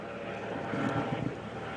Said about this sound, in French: il y a un hélicoptère qui vient de passer.